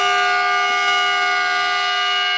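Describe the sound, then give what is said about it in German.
A battery-electric train in Aukrug sounds its older, lower horn tone: a loud, steady, multi-tone blast with bright harmonic overtones that holds at an even level throughout, with no break or change in pitch. “So haben die Akkuzüge im vergangenen Sommer gehupt.”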